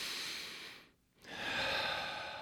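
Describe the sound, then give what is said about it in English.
A deep breath, drawn as soft, breathy airflow that briefly stops midway and then resumes more strongly, faint and without speech. “Can we just take a deep breath?”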